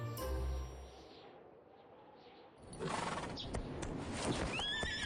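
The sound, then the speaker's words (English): A ridden horse whinnies amid hoofbeats during a ten-mile midwinter ride; a low tone opens, then louder clip-clopping and a high, harmonic neigh come in toward the end. “Xu Fengnian rode 10 miles on horseback to send off his sister and made his way back to the city a lone rider”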